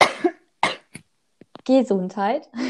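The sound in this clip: A few short, harsh coughs from a person in quick succession, followed by someone talking.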